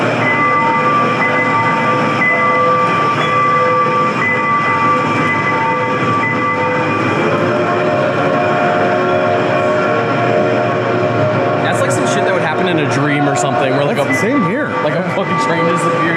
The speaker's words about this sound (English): I hear a train coming.